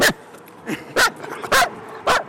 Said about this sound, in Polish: Jaki śliczny piesek. A skąd pan ma pieska?